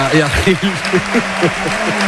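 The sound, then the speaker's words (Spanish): A stadium crowd at La Rosaleda gives an ovation to the football striker Roberto Fernández. A broad roar runs underneath while voices repeatedly shout or chant over it. “Ovación en la Rosaleda hacia la figura del delantero Roberto Fernández.”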